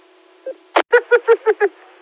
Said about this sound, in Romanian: Hai că a sunat, stai. Eu la telefon.